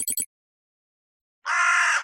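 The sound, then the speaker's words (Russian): A raven gives one harsh, drawn-out caw after a few faint clicks and a short silence, the call hoarse and moderately loud. “«Вот, даже ворон со мной согласен». «Я бы не сказала, что он согласен, скорее чем-то возмущен».”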